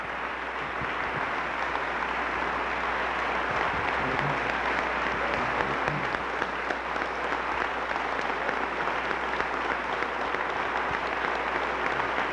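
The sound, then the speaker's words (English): Sustained audience clapping after a rousing political speech, a dense, even wash of many hands that holds steady for about twelve seconds over a low constant hum, with no voices rising above it. “I hope that you're clapping for yourselves. I hope that you're clapping for yourselves”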